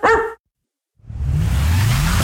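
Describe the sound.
A single sharp dog bark in a pet shop advertisement, loud and brief, followed by a pause.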